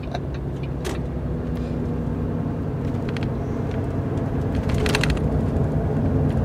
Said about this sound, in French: On est sous un tunnel, j'entends rien du tout.